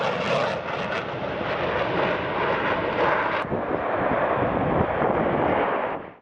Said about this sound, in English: Incredible aerobatics maneuvers and advanced aircraft flyovers dazzled the audience.